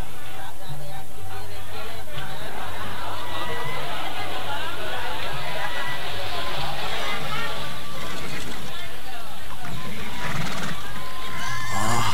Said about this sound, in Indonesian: itu di sana banyak terdapat kuda-kuda yang mungkin diperdagangkan